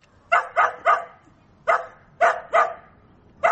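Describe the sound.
A taigan hound barks at a taigan hunting-dog competition in Jalal-Abad, giving seven sharp, mid-pitched barks in uneven groups of three, one, two and a last bark cut off at the end, with no talk.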